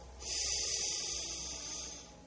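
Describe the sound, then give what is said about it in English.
A long, deep breath in during a yoga breathing exercise, a soft, steady airy hiss that swells after a brief start and lasts about two seconds before easing slightly. “One more big deep breath in,”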